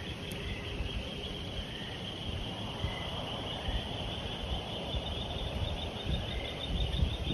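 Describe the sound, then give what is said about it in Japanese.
A chorus of frogs croaking at night forms a dense, steady drone with a thin high trill layered over it. The sound is faint and continues without pause. “これカエルたちの鳴き声なんですね。ゲロゲロ ゲロゲロ、 大合唱です。”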